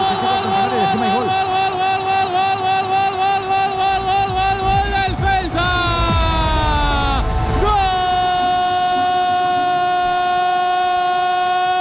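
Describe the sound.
A train sound effect: a loud, chord-like horn blares throughout over rumbling rail noise. The horn's pitch sags as it passes midway, then settles into a steady tone to the end.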